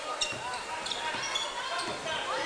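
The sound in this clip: A basketball dribbled on court during a game, a few sharp bounces thudding under continuous voices and the hum of the arena.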